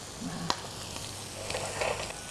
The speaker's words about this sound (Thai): เราอาจจะเอาทำให้มีลายนิดนึงนะคะเราก็ย่างลงไปในเตานี้ด้วยเลย